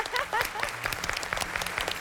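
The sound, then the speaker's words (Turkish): Applause for a child's teammate after a team activity that won an award. Quick, steady clapping runs through the whole two seconds, with a brief voice near the start. “alkışlamak istedi seni”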